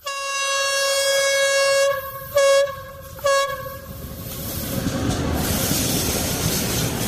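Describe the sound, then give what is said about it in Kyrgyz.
A train passing a village sounds its horn: one long loud blast, then two shorter blasts. The rumble and clatter of the moving rail cars then builds and continues. “Поездин үнү анда-санда жаңырып турган айылдын эли”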